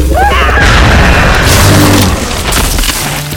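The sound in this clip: A pistol gunshot rings out as a loud, booming blast. Its dense, rumbling tail holds for about two seconds before easing slightly.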